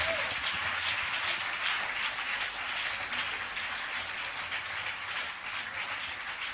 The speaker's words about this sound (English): Keep clapping.